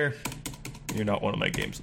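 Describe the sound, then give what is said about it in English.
Rapid clicking of computer keyboard keys as text is deleted letter by letter, a quick run of taps heard under a person talking. “That was the sound of me deleting it letter by letter.”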